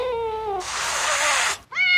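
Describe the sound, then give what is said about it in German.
A neighbour's cat meows twice, first a drawn-out falling cry, then a brief higher call, with a loud, harsh, breathy hiss-like noise filling the gap between them. “Das ist Miezi, das ist unsere Nachbarskatze”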